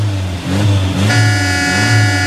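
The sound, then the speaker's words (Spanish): A car starting up: a loud, low engine drone with uneven swells, joined partway through by a steady, high-pitched tonal whine. “Desde que escuchan cómo enciende el carro,”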